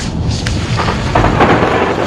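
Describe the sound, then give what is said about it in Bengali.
Thunder from a lightning storm rolls as a loud, broad, continuous rumble with a few sharper crackling swells. It lasts the whole two seconds, and no one speaks. “কি বিদ্যুৎ চমকাচ্ছে, বড় বড় বৃষ্টি কোথাও পড়ছে না।”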